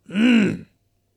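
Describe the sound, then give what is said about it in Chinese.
A man clears his throat once in a short, voiced grunt whose pitch arches up and back down. It is loud, stands alone, lasts about half a second, and sounds performed by a voice rather than naturally. “清了清嗓子”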